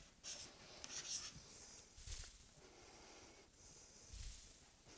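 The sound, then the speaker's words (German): Handwriting during a mathematics lecture: a few short, scratchy strokes and swipes, faint and heard alone without talk. “Das schreibe ich mit so einem Kringel da oben.”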